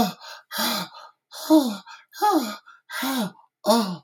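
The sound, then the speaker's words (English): Dubbed wheezing and panting from a 1980 film: five loud, strained, voiced gasps come in a steady rhythm, alternating with fainter, shorter breaths between them. “that's how they wheeze and pant”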